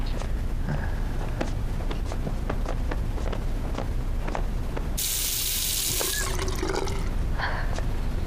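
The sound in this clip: Tap water runs in one short, steady burst of just over a second as hands are washed, with faint clicks and knocks around it.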